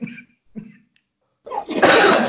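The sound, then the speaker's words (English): A person's cough: a rough, noisy burst that builds and fills the final second, after a couple of short, quieter vocal sounds and a brief pause. “And there it is. There's the cough.”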